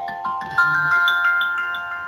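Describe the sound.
A phone rings with an incoming call, a steady electronic ringtone of bright, repeating tones that holds at an even level throughout.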